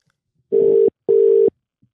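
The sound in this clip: An outgoing phone call gives its ringback tone: two short, steady, mid-pitched buzzing tones close together, each under half a second, followed by silence.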